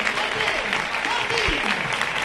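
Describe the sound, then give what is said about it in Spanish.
A football stadium crowd in Vallecas applauds a substituted player leaving the pitch, making a continuous broad roar of clapping under a man's steady commentary. “Se marcha Andrés Martín, que va a saludar a Soto Grado para ganar unos segunditos. Se retira entre los aplausos de la grada y va a entrar Álvaro García.”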